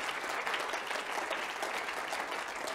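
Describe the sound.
A church audience applauds during a sermon, a dense, even patter of many hands clapping that continues steadily throughout at a fairly faint level.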